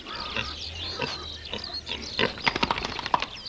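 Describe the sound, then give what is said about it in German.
A fattening pig grunts and snorts after being let out of its stall onto a meadow, with a steady string of rough, breathy oinks and sniffs that grow busier and sharper near the end. “Wann darf ein modernes Mastschwein schon mal heraus aus dem Stall?”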